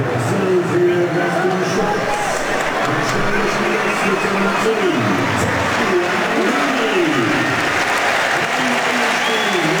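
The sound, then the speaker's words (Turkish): A stadium crowd applauds as a player is substituted during a football match involving Switzerland. The clapping is steady and sustained beneath a commentator's voice. “Alkışlar Botelli'ye.”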